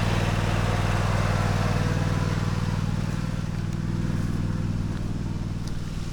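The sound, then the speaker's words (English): Steady engine drone of cars driving past, with a loud, continuous low rumble and buzzing motor tone that holds throughout without clear breaks. “now I gotta find a place to stand while these fools drive by. I think I'll just go right over here as we listen to the motor.”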